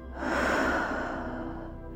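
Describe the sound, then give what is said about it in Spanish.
A forceful exhale during a breathing exercise: one long, breathy rush of air that swells quickly, holds strong, then slowly fades over about two seconds, with no talk. “Exhala con fuerza.”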